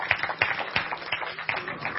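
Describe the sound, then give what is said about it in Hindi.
Audience clapping loudly to celebrate a newly running 20-kilowatt solar power installation, with sharp hand claps repeating in an uneven rhythm across the whole stretch. “तो जोरदार ताली हो जाए इन सबके लिए।”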